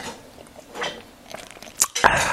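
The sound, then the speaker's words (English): A slurp of an alcoholic drink: soft wet sucking noises build into a short, louder sip near the end. “Actually, let's see if we can capture a slurp.”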